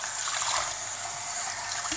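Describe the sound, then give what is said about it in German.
Running water from a kitchen tap while a pan is rinsed during cooking, a steady hissing rush that keeps an even level throughout with no clear breaks. “Ne, ich bin gerade am Abspülen.”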